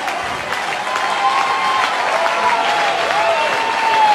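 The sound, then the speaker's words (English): A baseball stadium crowd cheers and applauds as fans rise during a strikeout count. The dense roar of clapping and voices builds steadily louder toward the end. “Attaboy, Birdie, and this crowd getting up.”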